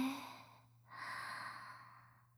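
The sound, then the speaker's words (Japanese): A deep breath drawn in slowly during a guided breathing exercise: one long, airy inhale lasting over a second, faint and alone, over a low steady hum. “ゆっくり深呼吸しましょうか。3回大きく深呼吸します。吸って”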